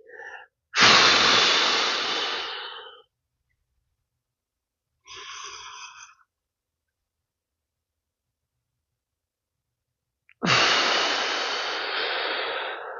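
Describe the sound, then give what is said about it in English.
Three deep breaths are taken in a row: a long, loud one first, a shorter, softer one after a pause, and another long, loud one after a longer pause. “But it's not that intrusive to take three breaths. Here we go.”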